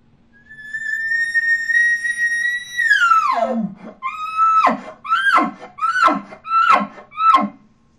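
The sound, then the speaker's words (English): A champion elk caller imitates an elk location bugle: a long, high, whistling note held for a few seconds, rising slightly before plunging low, then a run of short, descending squealing grunts in quick succession. “Now I'm going to combine that with my location bugle. I'm going to locate out, and I'm going to throw the grunt at the very end of it. Sounds like this.”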